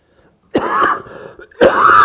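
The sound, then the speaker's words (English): A person who has struggled with a cough for several weeks gives two harsh, raspy coughs or throat-clearing bursts. The two bursts are separated by a brief quieter gap, and the second is loud and rough. “Struggled with this cough for several weeks and was hoping to get through this morning.”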